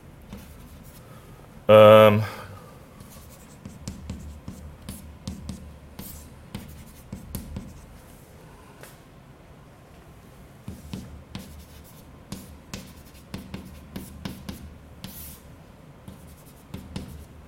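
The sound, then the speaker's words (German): Results are written down by hand during a maths explanation, with many short scratchy pen strokes in an uneven rhythm and one louder knock near the start. “Ich schreibe einfach nur die Ergebnisse hin.”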